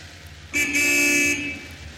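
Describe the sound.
A car horn sounds a single steady honk just under a second long, a bright tone standing alone against quiet road background.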